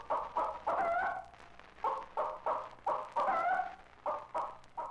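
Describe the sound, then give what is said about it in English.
A frightened hen clucks and squawks in excitement or alarm, repeating many loud, harsh bursts in a fast, uneven rhythm with little pause between them. “But when there is excitement or danger, a frightened hen sounds like this.”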